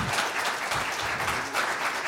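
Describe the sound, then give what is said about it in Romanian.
Audience applause for a children's choir performance: dense, even clapping that carries on steadily throughout, moderately quiet. “Vă rog, încă o dată aplauze. Chiar merită.”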